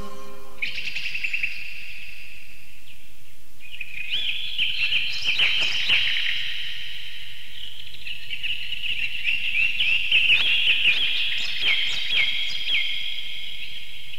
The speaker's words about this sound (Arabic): صادح البلبل يشدو إنه صوت الحياة